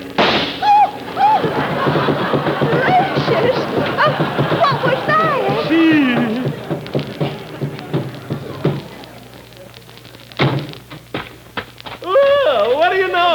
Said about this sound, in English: A blowout. Holy smokes, look at that. Shot to pieces. Oh, isn't that terrible? Why, not at all. Just remember, this tire was due.